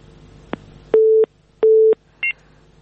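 Telephone line tones after a caller's call drops: a brief click, then two long steady mid-pitched beeps with gaps between them, followed by a short, higher-pitched tone.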